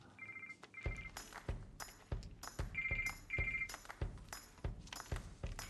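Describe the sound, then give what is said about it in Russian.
A phone rings with a melodic electronic ringtone in quick repeated bursts, the high chiming notes interleaved with short percussive hits, fairly quiet throughout. “Звонит Даша.”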